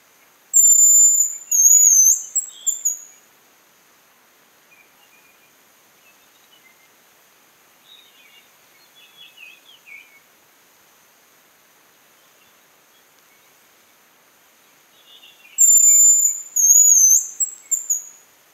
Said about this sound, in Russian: Рябчик.